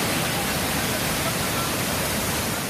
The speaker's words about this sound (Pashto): د قدرتي اوبو د ابشار د خیبر پختونخوا درګي بازار نه په 100 کیلومتره فاصله پروت دی